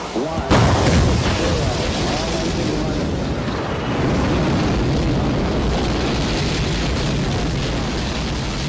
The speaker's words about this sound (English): Mission Shakti was an operation that involved shooting one of India's own satellites in space with an anti-satellite missile.